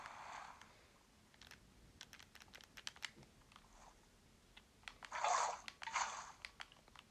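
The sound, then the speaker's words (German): Crunchy bites from a character eating food in the video game Minecraft. Scattered light clicks are followed by a few louder, crisp crunching bursts near the end, with no speech. “Ich esse mal kurz was.”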